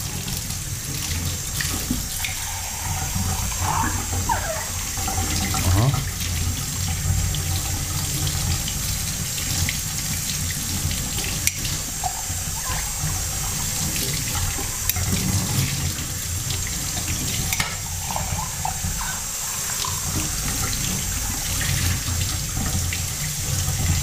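Water runs from a tap while a cup and spoon are rinsed, a steady splashing rush that continues unbroken throughout with no talk.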